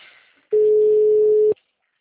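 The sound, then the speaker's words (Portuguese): A steady telephone line tone sounds while a call is being placed, one loud, even, mid-pitched beep lasting about a second, preceded by a faint murmur and followed by silence. “Tô tentando ligar.”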